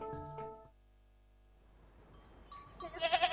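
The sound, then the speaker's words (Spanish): A goat bleats in a short, harmonic cry, followed by a stretch of quiet noise and louder, brighter sounds toward the end. “una cabra. Bueno, hoy entre vacas y cabras”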